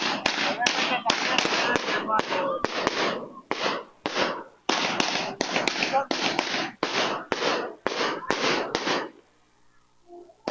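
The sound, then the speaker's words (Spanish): Colored firework bombs are set off in front of a church during a dawn festival celebration. Dense, loud volleys of rapid crackling bursts run almost nonstop for about nine seconds, with brief gaps, then stop abruptly into near silence. “Aquí está la quema de bombas de colores.”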